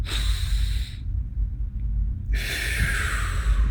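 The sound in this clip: Poor, shallow inhale demonstrated as an example of weak breathing: two short, airy, breathy draws of air separated by a brief pause, over a low rumble.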